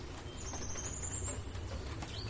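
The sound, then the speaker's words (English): A bird calls with thin, high whistled notes over a steady hiss of rain, faint and continuous throughout. “Pay no mind to that bird.”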